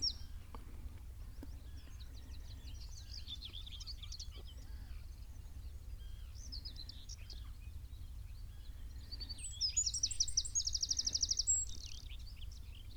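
Birds at a coastal roosting area call throughout in faint, scattered high chirps, then give a louder rapid trill near the end, over a low, steady rumble.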